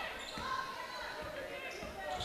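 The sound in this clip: A basketball is dribbled during a women's college game between MTSU and Memphis. It bounces several times in a steady rhythm, with dull thumps under a constant crowd murmur in the arena.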